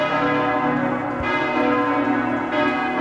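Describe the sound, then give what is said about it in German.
Church wedding bells ring loudly and steadily, their full metallic tones sustained throughout, with fresh strikes renewing the peal partway through. “Bei den Hochzeitsglocken, das ist, ne? Das ist genau richtig, ja.”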